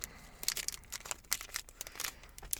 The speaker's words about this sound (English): So open that pack up and let's pull the cards.